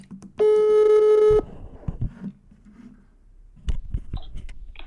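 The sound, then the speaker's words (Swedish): An outgoing phone call rings: one steady, buzzing ringback tone lasts about a second, then gives way to quieter clicks and low noise. “Ja, så jag har alltså ringt upp Christer Fuglesang, den första svensken i rymden.”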